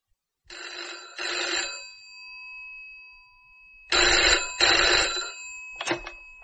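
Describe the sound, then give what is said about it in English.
Telephone bell ringing in paired bursts, two double rings separated by a pause and then the brief start of a third, bright and clear with no voices over it. “That's my phone.”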